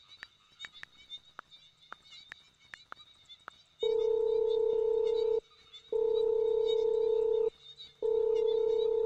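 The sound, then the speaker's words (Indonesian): A phone call being placed: a quick run of short keypad beeps, then a steady ringing tone sounding in three long pulses separated by brief gaps. “Udah aku teleponin dari tadi, tapi tuh gak diangkat, Ren. Bentar ya, aku coba lagi.”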